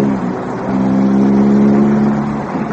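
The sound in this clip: Car engine droning steadily while driving, a continuous low, harmonic hum whose loudness swells slightly mid-way and eases toward the end, with no voices over it.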